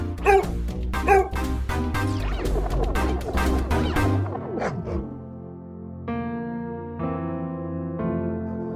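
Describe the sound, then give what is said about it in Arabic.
A dog barks and yips in a rapid, sharp string of calls that fills the first half, then the barking stops. “كل زاوية بالطريق واستمتع بنزهتي، والتقي بغير كلاب وناوشهم وألعب معهم. بدي عوق إذا حدا مرق وما حبيته”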